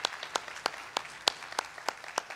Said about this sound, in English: Hey, can we make some noise and welcome in our online Vineyard family? Come on, let's hear it for them.